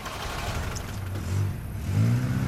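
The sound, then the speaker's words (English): A car engine rumbles low and steady as the vehicle pulls away from a fast-food restaurant, its drone swelling louder twice toward the end with no voices over it. “The boys drive away from Whataburger.”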